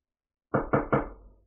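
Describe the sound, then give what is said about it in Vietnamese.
Three knocks on the door of a stone chamber inside a palace, solid, low and evenly spaced, each with a short resonant tail. They sound alone and fade out quickly after the third. “Một hồi tiếng gõ cửa truyền đến, Thạch Mục”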